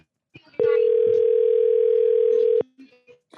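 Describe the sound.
A telephone tone sounds while a call is being placed: a single loud, steady tone holds for about two seconds, with faint voices and scattered noise just before and after it.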